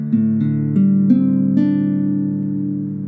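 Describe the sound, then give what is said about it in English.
Open strings of a guitar in DADGAD tuning are sounded one after another, each note adding to a ringing chord that sustains smoothly and fades slightly at the end. “And then we're going to play all the strings.”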